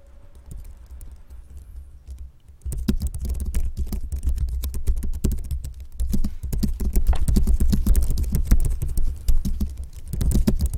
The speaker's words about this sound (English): We sit at our desks. We type with our fingers. We listen. We type.